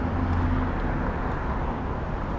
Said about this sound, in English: So here come all the cars on our right.